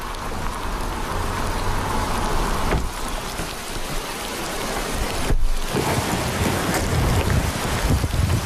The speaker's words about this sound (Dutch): Als we de auto het gevangenisterrein oprijden, slaat de regenbui om in een wolkbreuk.